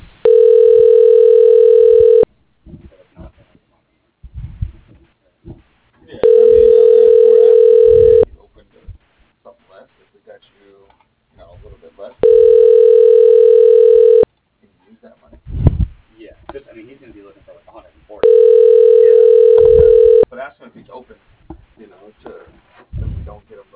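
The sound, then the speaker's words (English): A telephone ringing tone plays while a call is transferred and held. Four long, steady, mid-pitched tones of about two seconds each recur at even intervals, with faint clicks and noise in the gaps. “Your call is being transferred. Please hold.”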